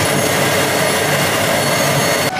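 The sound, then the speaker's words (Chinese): A power-station generator unit rumbles through a listening rod held to the ear, a loud, dense, rushing roar that stays steady, then cuts off abruptly at the very end. “咱们的那个发电机组的那个声音好像是轰隆隆的水的声音”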